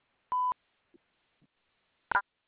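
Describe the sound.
A single short, steady beep from a telephone voicemail system prompts the caller to record a name. It is followed by a couple of faint clicks and then a brief, sharp burst of noise.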